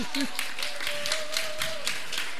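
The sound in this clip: Audience clapping in a steady rhythmic beat, with evenly spaced bursts of claps over a sustained tonal sound.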